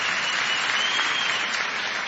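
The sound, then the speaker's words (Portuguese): An audience gives dense, steady applause for a singer who has just performed as a finalist for a new-talent award, with the clapping holding an even level throughout. “Uma salva de palmas para ela.”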